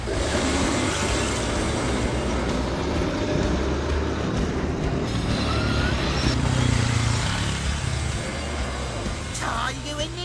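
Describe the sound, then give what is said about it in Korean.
Car engines roar and wheels spin in sand as a yellow car and a sports car get stuck during an off-road test, with a tank passing by. The noise is loud, dense and continuous, with rumbling and grinding throughout. “노란 차가 모래에 빠졌어요. 스포츠카는 통과할까요? 아, 이게 웬일입니까? 차 바퀴가 모래에 빠져 헛바퀴만 돌고 있네요.”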